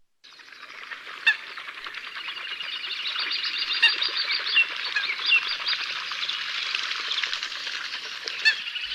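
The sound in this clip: Birds chirping and chattering in a dense, continuous chorus of high-pitched overlapping calls that hold steady throughout, with a few sharper peaks standing out.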